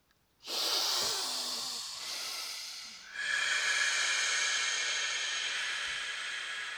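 A deep breath is drawn in through the mouth, a long, loud, airy rush in two stretches separated by a short dip, with no talking.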